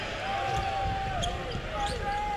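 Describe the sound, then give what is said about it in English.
Basketball dribbled during a professional game against Toronto, a steady bounce under continuous background noise. “James on the dribble into the lane against Anunoby.”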